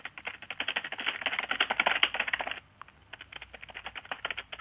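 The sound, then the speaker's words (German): Rapid clicking of computer keys as someone types a question into a keyboard. A dense run of keystrokes stops briefly, then a second burst of typing follows. “Ich muss das mal eintippen.”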